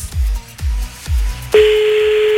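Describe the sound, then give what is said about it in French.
A telephone number being dialed to place a call: three low, evenly spaced thumps, then a steady, unbroken mid-pitched tone that holds to the end. “c'est parti, on l'appelle Yvan maintenant”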